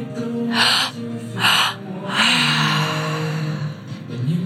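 Deep breaths drawn during a live breathwork meditation session, with three loud, airy inhale-and-exhale surges in succession and no talking.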